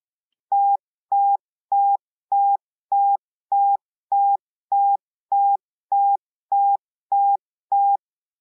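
Morse code letter T, a single dash, sounded as a steady mid-pitched tone. The dash repeats thirteen times with even length and spacing, clean and alone with no voices.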